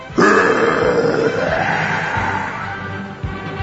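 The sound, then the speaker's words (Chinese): A voice imitates a fire dragon's roar: one loud, rasping, growling cry that starts abruptly and holds for about three seconds, slowly weakening as it goes. “这样的叫声才被称为龙啊”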